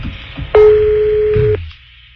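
A telephone rings on a call, heard as a single steady mid-pitched tone lasting about a second over a faint low background hum, then dropping to quiet.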